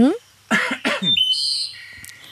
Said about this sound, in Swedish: får jag harkla mig?